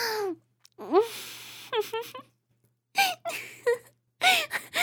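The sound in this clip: Drawn-out vocal moans and whimpers, a voice gliding up and down in pitch in several short bursts separated by brief silences, moderately loud and alone.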